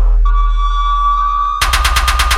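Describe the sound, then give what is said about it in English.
Gunshots in a rap song: a steady, sustained high tone gives way to a rapid, evenly spaced series of loud, punchy bangs that continues to the end. “There go another few shots.”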